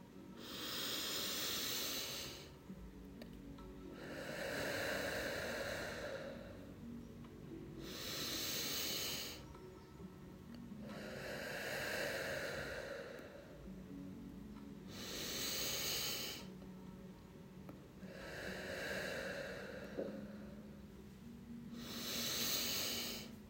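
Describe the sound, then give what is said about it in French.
Slow, soft breaths in and out during a calming breathing exercise, each an airy hiss that swells and fades in a steady, unhurried rhythm; quiet throughout, with no talk. “La fleur respire avec toi. À chaque fois que tu prends de l'air et à chaque fois que tu souffles, nous allons le faire ensemble.”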